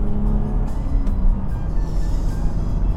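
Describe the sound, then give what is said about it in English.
Car engine drone with a whine at about 100 km/h and 3,500 RPM, a loud, steady low rumble with a thin whine above it, holding even throughout. “You can hear the engine whine”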